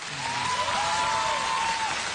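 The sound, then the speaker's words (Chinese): Warm applause greeting a visiting leader who has come to meet villagers: a steady, dense patter of many clapping hands lasting throughout, with a faint thin tone held across the middle. “来，我们以热烈的掌声欢迎领导光临直达。”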